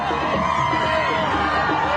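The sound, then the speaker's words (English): Crowds cheer as a bus carrying freed hostages returns to Israel from Gaza, a steady mass of mixed voices and calls that holds at an even level. “A bus carrying hostages is greeted by crowds on their return to Israel from Gaza.”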